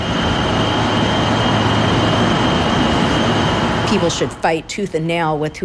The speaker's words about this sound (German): Seit rund einem Jahr steht vor ihrem Haus ein Rechenzentrum, gerade mal 150 Meter entfernt. Seine Erdgasgeneratoren liefern den Strom und produzieren dabei viel Lärm.